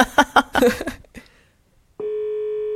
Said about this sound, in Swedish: ska vi inte ringa upp honom nu? Ja, vi gör det.